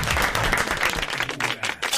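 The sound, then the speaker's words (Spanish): Audience applause, a dense, continuous patter of many hands clapping at once, loud and steady for the whole stretch with a little crowd murmur mixed in. “Bravo, el aplauso, bravo. Bien grande. Bien grande.”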